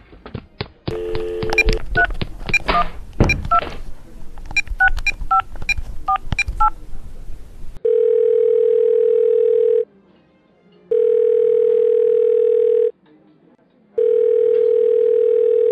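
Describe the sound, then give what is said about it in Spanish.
Telephone keypad tones beep in a rapid string as a number is dialed, then the line rings back with three long, steady buzzing tones separated by pauses. “Voy a llamar a Pablo.”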